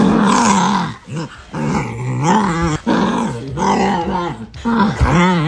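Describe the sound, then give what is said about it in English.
A dog makes strange growling, groaning vocalizations: continuous rumbling growls with a wavering, moan-like pitch that rises and dips over several bursts separated by brief pauses. “hard to believe that's a dog, but it is. That would be my dog.”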